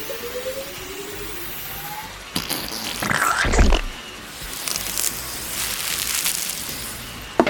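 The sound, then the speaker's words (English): A machine injector switches on inside a garbage-compacting machine. Over a low steady hiss, an abrupt rushing whoosh starts, with rumbling, gurgling bursts that surge and ease in uneven pulses. “Turning on injector.”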